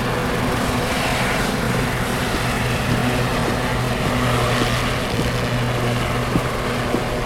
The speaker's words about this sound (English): So the air taxi helped shave off a bit more time. All right, it's down here.